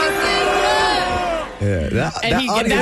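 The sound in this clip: A concert crowd jeers and shouts at Drake, a loud, dense roar of many voices, with a single voice cutting through the noise toward the end.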